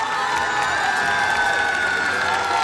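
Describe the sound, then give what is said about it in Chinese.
Applause and cheering from the audience at a guofeng (Chinese national-style) folk music concert as its hosts are welcomed: dense, continuous clapping and crowd noise with scattered whoops, loud and steady throughout. “首先让我们掌声欢迎国风音乐社的寻风主理人王佩宇老师”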